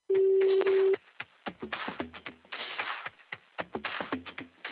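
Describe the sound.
Telephone being dialed: a steady tone lasts about a second, then an irregular run of many sharp clicks and brief tones follows, with no talk.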